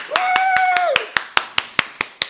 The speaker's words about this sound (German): Ich muss klatschen.